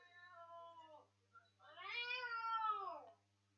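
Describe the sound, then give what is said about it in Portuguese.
A cat meowing twice: a short, level first meow, then a longer, louder meow that rises and falls in pitch. No one speaks, and a faint low hum runs underneath. “que gato que é esse?”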